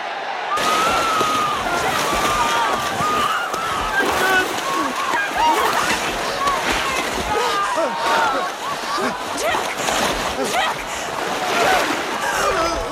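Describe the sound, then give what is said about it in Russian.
Frantic splashing of a crowd of drowning people beating black water into foam with their arms: a dense, continuous churning slosh that stays loud and unbroken throughout. “В кадре толпа тонущих людей, взбивающих руками в пену черную воду.”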